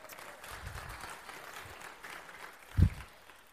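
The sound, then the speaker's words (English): A church audience claps softly, a faint, even patter of applause with one dull thump near the end and no speech. “no need to clap. It's just it's the way it is.”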